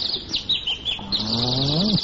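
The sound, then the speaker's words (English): Birdsong in a playful family scene: bright, high chirping tweets repeat in quick bursts above a lower warbling, coo-like tone that swells and bends upward at the end. “Listen to the pretty birdie sing. That's a papa birdie.”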